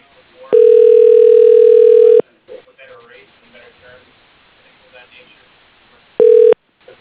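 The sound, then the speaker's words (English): Telephone tones as a call is transferred to voicemail: a long, steady mid-pitched tone lasting under two seconds, a stretch of quieter muffled sound, then a second, much shorter tone of the same pitch. “Let me put you through to her voicemail.”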